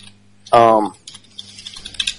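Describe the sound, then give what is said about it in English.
Keys clack on an antique typewriter in a brisk, irregular run of sharp clicks that follows a brief voice. “Typing up their dissertation in the background. Yeah. Somebody's typing on like an antique typewriter right now.”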